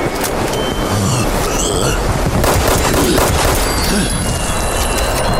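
Gunfire in a video game, loud and dense, with rapid shots blurring into continuous noisy bursts that run the whole way without a break.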